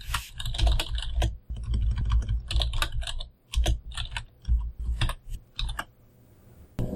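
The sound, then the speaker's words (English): Fingers type on a computer keyboard: loud, rapid clicks in irregular bursts separated by short pauses, ending in a quiet stretch. “And then we go Google it and you can always hear us typing. My problem is that it's loud enough that the truncate silence does not take it out.”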